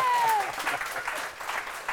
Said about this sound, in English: I think we need more love for that joke. Let's give it up. All right. There we go.